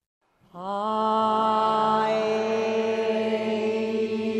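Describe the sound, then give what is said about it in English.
The Community of Voices choir, a San Francisco choir of singers aged 60 and over, warming up: many voices enter together and hold a full, sustained chord that stays steady for several seconds. “That is the sound of a new choir warming up in San Francisco called Community of Voices.”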